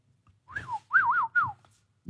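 An old man whistles a short tune in three bursts, each note sliding up and down. The whistling is clear and moderately loud, with no talking over it.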